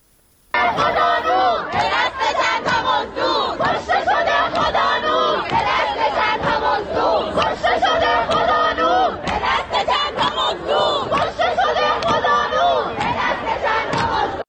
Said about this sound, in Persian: الان میتونیم صدای این شعارها رو بشنویم.